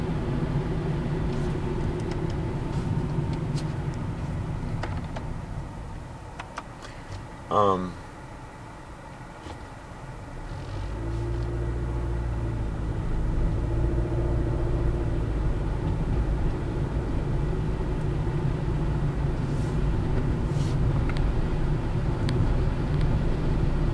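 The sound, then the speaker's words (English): Steady engine and road drone from inside a car driving through a town, a low continuous rumble that dips briefly near the middle and then swells back, fuller and heavier for the rest. “I'm just driving through a town here right now with”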